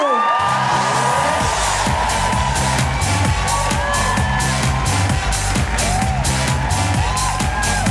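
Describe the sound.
An audience at an Amnesty International comedy benefit show at the Hackney Empire whoops and cheers in welcome. Loud, continuous cheering runs throughout, laced with many high rising whoops and whistles.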